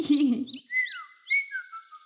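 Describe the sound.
A bird chirps in a series of high, quick whistled tweets, several short notes that bend up and down in pitch. A brief voice is heard just before the chirps begin.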